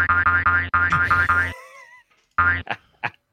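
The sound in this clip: Electronic effects from the Super Nintendo version of the Frogger video game: rapid chains of buzzy, bouncy boing-like tones, a ringing tail of warbling sweeps, then a few short blips, heard alone.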